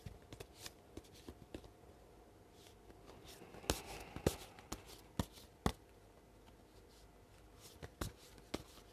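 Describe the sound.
Playing cards being shuffled for a tarot-style reading: soft rustling broken by crisp riffles and snaps, with a few sharper clacks bunched in the middle and more near the end, and no voices.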